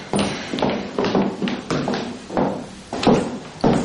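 Footsteps of someone walking down a corridor at a worried pace, a steady series of firm taps and thuds, each clearly separated and fairly loud with no talk over them.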